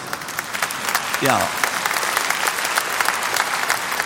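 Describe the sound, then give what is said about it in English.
Audience clapping during a sermon, a steady, dense wash of many hands that stays even throughout, with a voice briefly heard over it. “all sinners clap at this particular point, all right?”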